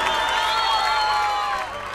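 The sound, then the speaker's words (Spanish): Audience applause mixed with cheering after a call for hands in the air, a loud, continuous wash of clapping and crowd noise that eases off slightly toward the end. “Las manos en el aire, aplauso para muchísimas Joana.”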